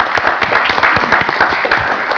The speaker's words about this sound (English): Let's applaud them in absentia.